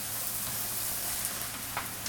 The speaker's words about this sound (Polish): Już słychać, jak tam cebula zaczyna się przypiekać, więc myślę, że to jest odpowiednia pora, żeby ją zdjąć z ognia